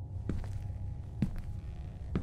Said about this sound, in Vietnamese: tiếng bước chân của nhỏ lạch cạch vang lên giữa cái không gian yên ắng